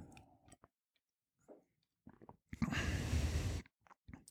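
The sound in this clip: Someone sips bottled water to taste it: a soft, breathy slurp lasting about a second, with faint mouth clicks and breaths before and after, amid near silence.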